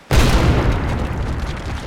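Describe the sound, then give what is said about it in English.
An 81mm mortar round exploding: one sudden heavy boom that bursts in at once, then a long, dense rumble that slowly thins out. “Stryker, that's the last of the 81mm rounds. I think we softened them up for you.”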